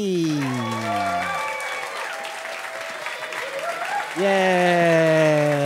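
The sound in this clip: An audience applauds a comedian at a live comedy show in Chicago, with sustained, loud clapping throughout and raised voices calling out over it.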